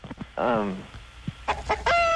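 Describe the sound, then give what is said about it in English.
Chicken calls, a loud drawn-out warbling cry followed by a few shorter clucking bursts, harmonic and piercing, with brief low sounds between them. “Chicken. Chicken, sure.”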